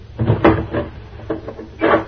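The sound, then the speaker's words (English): A door being shut and locked: a few solid wooden clunks and sharp latch clicks spaced over two seconds, fairly loud with no voices. “Close the door. Lock it”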